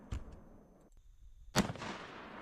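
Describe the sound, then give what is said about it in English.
A gunshot is fired into a block: one sharp, loud crack followed by a short decaying burst of noise, with a fainter pop earlier against a quiet background. “That's too fast. What happened? That's the shot. It's over.”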